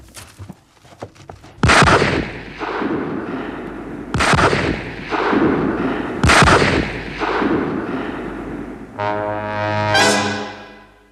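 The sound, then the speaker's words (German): Three gunshots from a hunting rifle crack out at night. The sharp, loud blasts come a couple of seconds apart, each trailing off in a rumbling tail, and a rising tonal musical sting follows. “Drei Schüsse in der Nacht. Und dann wurde es still.”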